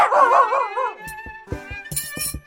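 Jip, Dora's small dog in an audio drama of David Copperfield, gives a drawn-out, wavering whine, then a quick run of short, sharp yaps and yips.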